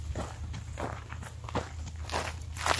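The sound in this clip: Steady footsteps walk outdoors around a yard at a rented property, a long series of soft, evenly spaced steps over a low constant hum.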